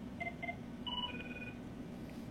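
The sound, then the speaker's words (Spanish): Telephone tones signal an incoming call: a few short, clear electronic beeps at differing pitches sound over a steady low hum, with no voices. “nos entró una llamada”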